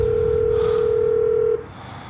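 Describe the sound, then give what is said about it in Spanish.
A telephone line tone sounds during a call placed at night beside a road, outside a car. The steady mid-pitched hum sits over a low rumbling background and cuts off after about a second and a half. “Ángel hace una llamada desde fuera del coche”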